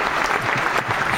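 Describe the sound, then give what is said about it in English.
Applause opening a TV after-show: a short, dense burst of clapping, steady and fairly loud, with no voices. “Love the applause.”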